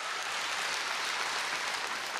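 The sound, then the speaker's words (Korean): Steady, loud applause from a concert audience after a traditional Korean Buddhist monk's dance performance, a dense even wash of clapping with no pauses and no voices on top. “자명 스님 그리고 이 승무를 전해준 신현우님에게도 큰 박수, 이 무대가 떠나가듯 큰 박수 보내주시기 바랍니다.”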